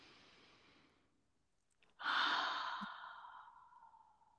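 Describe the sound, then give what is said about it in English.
A single deep human breath during a guided breathing exercise: a soft, airy inhale, a short pause, then a louder, breathy exhale that slowly fades out. “So let's do that together. Take a deep breath in.”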